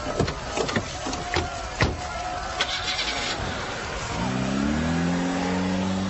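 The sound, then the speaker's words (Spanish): A car engine revs as the car drives off: a few scattered knocks and clatters come first, then the engine's drone rises quickly in pitch and holds at a steady, loud tone. “¡Suban al auto! Yo conduciré. Pasé mi adolescencia en los arrancones de Brooklyn.”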